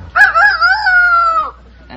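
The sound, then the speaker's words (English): A person imitates a rooster crowing with one drawn-out, strained crow of more than a second, loud and alone, followed by a quiet pause. “Is that any good? Yeah, that's good. It's a rooster.”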